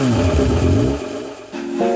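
A motorcycle engine accelerating gives a loud, buzzing harmonic drone. It wavers, eases off briefly, then returns with a steadier tone that steps up in pitch near the end.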